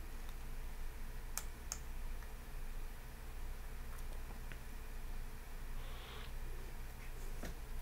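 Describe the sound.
A few faint, dry computer mouse clicks over steady low hum and hiss, made while pressing the Submit for Review button on a Microsoft device certification request.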